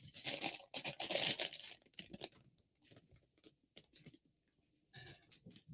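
A plastic container is torn open, with a dense crinkling, crackling rustle over the first two seconds, then scattered small clicks and crackles separated by quiet gaps.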